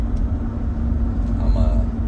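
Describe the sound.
A car being driven gives off a steady low rumble of engine and road noise. It stays even and continuous throughout, with no clear voices.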